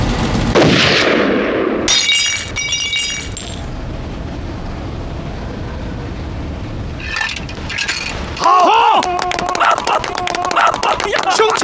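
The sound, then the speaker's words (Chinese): Gunshots fired after a command to shoot: a few sharp cracks within a loud, dense wash of noise, followed near the end by bright ringing tones. “立马射击！”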